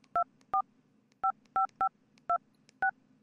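Telephone keypad dialing tones, seven short, clean two-note beeps pressed at an uneven pace over a faint low hum, with no voices.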